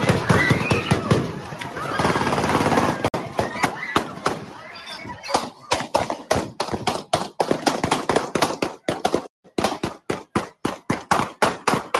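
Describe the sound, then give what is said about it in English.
Gunshots ring out in a recorded shootout near a party across from Pius: after a dense stretch of noise comes a rapid, irregular string of many sharp, loud bangs. “It was a shootout, and Tim Keller is trying to keep it quiet. Wow. So again, here's what it sounded like under Tim Keller's watch, right across from Pius.”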